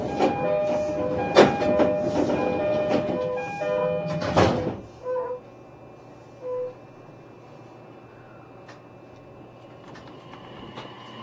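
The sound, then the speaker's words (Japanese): Commuter train doors closing at a station on the Joban Line, on a service bound for Tsuchiura: a bright tonal melodic chime plays over the train, ends in a short clattering burst, and then a steady low hum remains. “番線ドアが閉まります。ご注意ください。”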